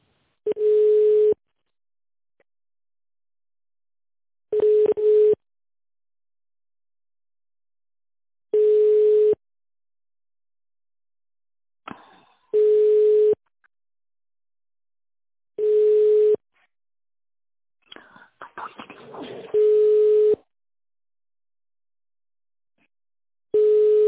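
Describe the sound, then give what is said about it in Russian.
Telephone ringback tone heard while a call is transferred to a sales department: a steady mid-pitched beep of about a second, repeated at regular intervals of roughly four seconds, with faint line clicks and noise between some rings. “Звонок переводится в отдел продаж.”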